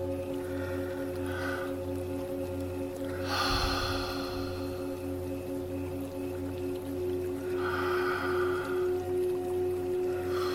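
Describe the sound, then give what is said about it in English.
Slow, deep breaths drawn in and let out during a mindfulness meditation, soft and airy, heard as long broad swells over a steady, low sustained musical drone. “let's start by taking a few deep breaths to let out the tension that you're experiencing right now. So, in and out, 3 times.”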